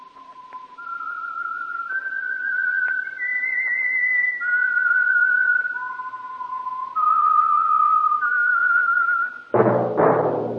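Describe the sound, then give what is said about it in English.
A solo whistled theme melody for a radio program, clear, steady notes held long and stepping up and down in pitch, ending in a brief loud burst of fuller sound. “the Whistler theme by the real Whistler will sound like this.”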